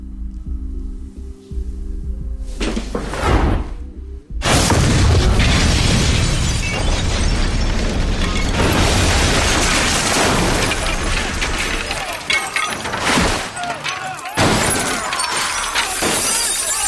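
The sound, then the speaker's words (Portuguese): A homemade chemical explosive goes off with a loud blast after a brief earlier burst, then a long, dense crash of shattering glass and debris that stays loud to the end. “ele tá com um explosivo que ele fez químico na mão e pá, explode tudo.”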